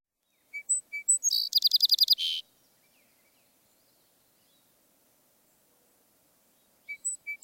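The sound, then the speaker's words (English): A song sparrow sings: several short, high chirping introductory notes lead into a fast, buzzy trill. Silence follows, then a few more high notes near the end. “Song Sparrow.”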